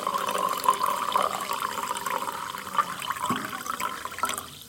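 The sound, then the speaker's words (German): Fresh sparkling mineral water fizzes and bubbles in a busy, crackling stream of many tiny pops over a soft watery hiss, fairly faint and continuous for several seconds. “Wenn man jetzt das hört, wie schön das prickelt und quirlt und tut, dann ist das schon das Erste, was man mit dem Hörsinn wahrnimmt. Das ist ein frisches Wasser.”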